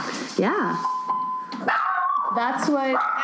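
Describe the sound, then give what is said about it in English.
A dog barks and yips in a few short, high, rising-and-falling bursts, while people talk over and between the barks. “I was wondering what the barking was.”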